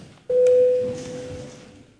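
A single electronic tone signals the start of a parliamentary vote. The mid-pitched beep sounds sharply, holds briefly, then fades away.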